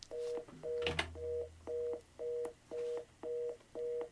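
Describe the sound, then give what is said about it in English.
Telephone tone beeping in a steady on-off pattern, many short pulses of the same pitch evenly spaced, with a brief brighter click near the start. “We're having some technical difficulty in the studios. So sorry. because like that little dial tone, that was perfect.”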